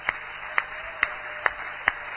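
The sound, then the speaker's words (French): Congregation clapping in time to welcome the word of God at a church service: five sharp, evenly spaced claps about half a second apart, each standing out clearly above a steady high-pitched tone. “Voulez-vous accueillir la parole de Dieu par des applaudissements?”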